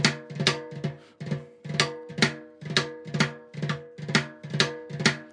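Snare drum double strokes played hand to hand, each hand striking twice in turn: crisp, evenly spaced pairs of hits in a steady repeating rhythm, with no voices.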